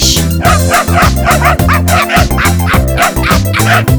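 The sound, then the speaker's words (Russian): A small dog barking: loud, quick, yippy barks and whimpers repeat in a steady, rhythmic run throughout. “Громко гавкает твоя жучка и кусается, словно клещ.”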